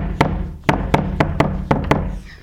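Knuckles knocking on a toilet door: seven sharp, hollow raps in a quick, slightly uneven rhythm, heard alone with no talk.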